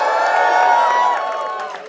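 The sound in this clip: Fans cheering, whooping and shouting for a band during a live radio station session: a dense, loud wall of crowd noise that holds steady and then tapers slightly at the end.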